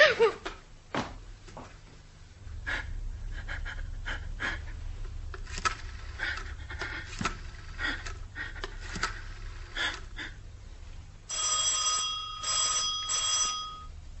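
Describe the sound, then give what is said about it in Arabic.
A telephone handled and dialed in an Egyptian radio drama: many sharp clicks and clatters of the handset and dial in an irregular run, ending with a steady tone. “ناوليني التليفون”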